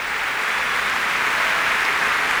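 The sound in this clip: An audience applauds at the opening of a BBC Symphony Chorus concert. The clapping is dense and steady, a continuous wash of many hands with no pauses.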